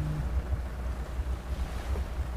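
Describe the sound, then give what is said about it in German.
A boat motor runs as water laps at a harbour on a calm lagoon, a faint, steady low rumble with soft splashing and a light wash of wind noise. “die Leinen losmacht und der Motor anspringt”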